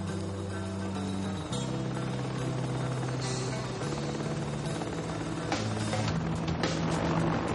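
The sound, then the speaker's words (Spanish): A helicopter flies over the area, its rotor drone and engine hum running continuously at a steady level. Brief bursts of brighter noise appear midway and toward the end. “Un helicóptero sobrevuela la zona.”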